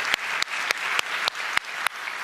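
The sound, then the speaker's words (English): An audience claps during a church talk about young people's faith. A steady bed of applause carries seven sharp, distinct claps that land at a regular beat, about three per second. “It's worth clapping for.”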